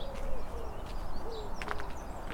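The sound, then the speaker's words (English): A wood pigeon croons softly at dawn beside a Brecon Beacons canal in spring. Low cooing notes sit faintly over a gentle outdoor hush, with a few brief higher bird calls. “There's a lovely wood pigeon crooning.”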